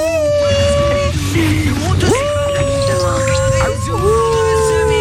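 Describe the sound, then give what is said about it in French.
A small miniature pinscher dog of about five kilograms howls in long, wavering, whimpering tones that glide up and down and hold steady, continuous and fairly loud throughout. “Scooby-Doo, il fait des bruits comme ça. C'est quoi comme modèle de chien ? C'est un pincher nain.”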